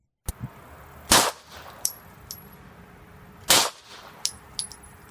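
Glock pistol firing: two loud, sharp reports a couple of seconds apart, with lighter metallic clinks and ticks between and after them.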